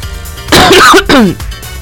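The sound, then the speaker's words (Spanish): A couple of raspy cough bursts in quick succession, short and loud against a quiet background, with no talking in between. “me dio tos”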